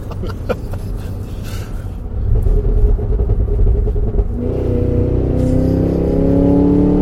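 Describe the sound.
Supercharged Cadillac Escalade V engine accelerating at full throttle: a loud, deep rumble builds into a strong engine note whose pitch climbs steadily to the end.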